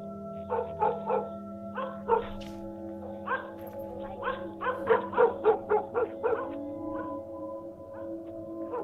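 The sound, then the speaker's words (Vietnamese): Several dogs barking in a narrow alley: a quick run of many sharp, overlapping barks and yips over a steady low tonal hum. “Chó ở trong con ngõ lúc này thi nhau chõ ra mà sủa.”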